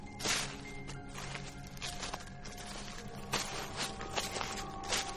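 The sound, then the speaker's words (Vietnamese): Rustling footsteps crunch through dry leaves, a long run of many steady steps with sharp brittle crackles and no voices. “Có tiếng bước chân sột soạt, dẫm lên lá cây đang tiến đến gần.”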